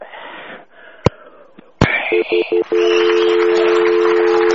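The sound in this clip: A phone is dialed to put a call through to Scotland: a couple of sharp clicks, then a few short, bright keypad tones in quick succession, followed by a steady held tone to the end.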